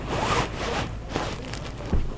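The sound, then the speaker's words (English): Handling noise from an audio recorder being pulled out of a backpack: loud, steady rustling and rasping, zipper-like scrapes, ending in a soft knock. “The recorder was left on and was coming out of my backpack.”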